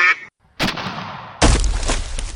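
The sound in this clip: A duck quacks in short, harsh, noisy bursts: a brief call, a pause, then longer rasping blasts that grow loud toward the end, with no talk.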